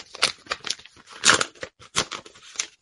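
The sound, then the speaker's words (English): Paper tearing as a gold envelope is ripped open, heard as several short, crisp bursts of ripping and crinkling of uneven strength, with brief pauses between them. “I can see that you've got your gold envelope there. Poised and ready to rip it open.”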